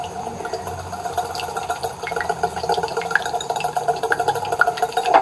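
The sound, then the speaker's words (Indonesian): Milk is poured into a bowl of whisked egg, making a continuous trickling, splashing liquid sound. Dense small ticks and taps run through the whole pour at a moderate level, with no talking. “Bar kuwi terus disoki susu. Dikocok meneh.”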